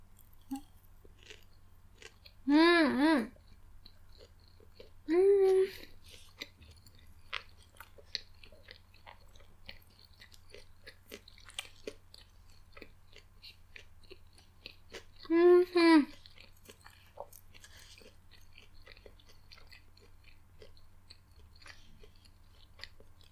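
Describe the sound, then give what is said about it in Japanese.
Chewing on a breaded cutlet gives faint crunchy clicks scattered throughout, with three short hummed voice sounds rising above them. “そしてカツいただきます。”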